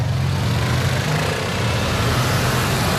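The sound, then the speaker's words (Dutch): Evening rush-hour traffic in central Belgrado, with many old cars on the road: a continuous low engine rumble and road hum, steady and even throughout with no distinct pass-bys. “Het is avondspits in Belgrado en dat betekent zoals altijd veel verkeer in het centrum.”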